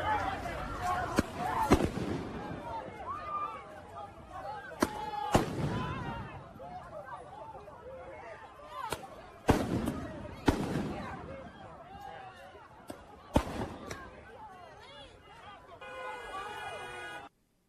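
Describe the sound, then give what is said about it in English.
Tear gas canisters and rubber bullets fired at a George Floyd protest: many sharp, irregular bangs and pops scattered over nearly eighteen seconds, with voices and crowd noise in the background between the shots. “I think those were canisters of tear gas being fired. Correct. And again, rubber bullets being used.”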